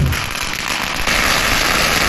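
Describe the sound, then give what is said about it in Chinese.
Firecrackers rattle in a dense, unbroken string of loud crackling bursts, set off by villagers welcoming a dragon-dance troupe during village New Year celebrations on the second day of the lunar new year. “当李氏龙灯将欢庆分享给村民时，其他不同姓氏的村民则纷纷摆香案、燃放鞭炮、接福纳龙”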